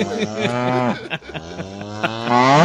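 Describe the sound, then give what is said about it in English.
A cow moos in one long, drawn-out, loud bellow with a low, wavering harmonic tone. It breaks briefly midway, then swells again toward the end. “That cow goes on for too long. That was aggressive.”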